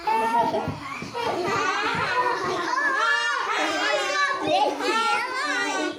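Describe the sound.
Children play at Indians, many high young voices chattering, calling out and laughing together in a busy, continuous mix.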